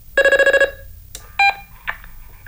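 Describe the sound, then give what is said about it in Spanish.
Phone tones as a call to Santiago is placed: a rapid burst of pulsing electronic tone, then a short single tone and a few fainter blips over low line noise. “estoy llamando a Santiago.”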